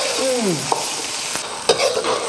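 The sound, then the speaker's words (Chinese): Small shrimp stirred slowly in oil over low heat, with a steady sizzle of frying under repeated scraping stirs and a few sharper clinks from the utensil. “要慢慢的搅拌，油温不能高，油温高了以后呢，很容易焦化。这样就慢慢的熬。”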